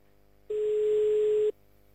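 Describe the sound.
A single steady ringing tone from an outgoing telephone call, heard alone as one unbroken burst of about a second at a fixed mid pitch, with a faint buzzy edge and quiet line hiss around it.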